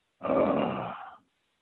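A person imitates a groan of weary disgust: one rough, breathy vocal sound that swells quickly, holds for about a second, then trails off. It is loud and alone, with no other talk.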